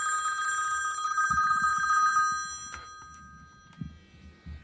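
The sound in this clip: A telephone rings with an incoming call: a steady, warbling electronic ring for about two seconds that then stops, followed by a few soft low thumps.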